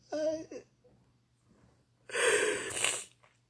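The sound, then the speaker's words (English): A person sniffing: a short voiced gasp, a quiet pause, then a longer, loud, breathy nasal inhale. “Sniffing.”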